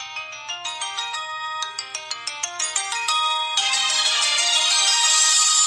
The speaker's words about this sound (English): And now the phones don't ring anymore. They play colorful little jingles. My favorite is the sequence of melody that repeats itself 3 times, each one louder than the last.